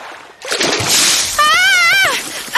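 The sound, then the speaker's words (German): Water splashes onto an angler fishing for trout, a loud rushing burst followed by a brief wavering vocal cry. “Jemand hat mich nass gespritzt. Fast hätte ich die Angel losgelassen.”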